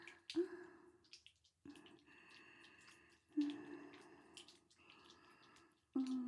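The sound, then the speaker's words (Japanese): Wet sounds of washing with both hands while water drips. A few squishy, splashing bursts recur at an uneven pace, with softer trickles between them and no talk. “ママが両手で大事に大事に洗ってあげまちからね。”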